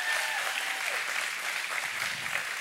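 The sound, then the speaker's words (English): Audience applause for the senior pastor at a Mother's Day church service: a dense, steady wash of clapping that holds at an even level from start to finish. “Can we go ahead and give it up for our senior pastor?”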